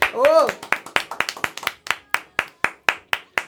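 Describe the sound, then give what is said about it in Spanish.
Studio audience applause on a radio show. A short rising-and-falling vocal whoop leads into a small group clapping in sharp, uneven claps that come quickly at first and then thin out. “Un aplauso, por favor.”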